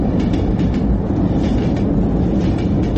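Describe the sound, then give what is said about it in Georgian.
A train runs along a track mounted on the wall of a room, a loud, continuous rumbling roar that stays steady throughout, with no voices. “ამოთახში მატარებელი მიდის, კედელზე გაკრული ლიანდაგი უსასრულოა.”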